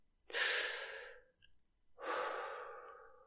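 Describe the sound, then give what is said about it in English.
Deep, intense breathing with exhales pushed through pursed lips: two long, airy, rushing breaths, each swelling quickly and then trailing off slowly, separated by a short quiet gap. “Deep, intense inhales followed by conscious exhales through pursed lips.”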